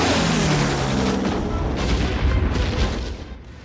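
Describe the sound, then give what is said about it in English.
Bombs dropped by wartime bombers explode as they hit the ground, heard as a dense, continuous roar of rumbling blasts and crackle that stays loud throughout, with no clearly separate bangs. “The bombers drop their ordnance. I'm coming! I'm coming! The bombs erupt as they hit the ground below.”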